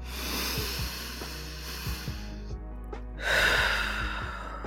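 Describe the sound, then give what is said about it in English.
A deep breath swells as one loud, airy rush near the end, after a few softer breathy sounds, all over a steady low electrical hum. “let's take a deep breath.”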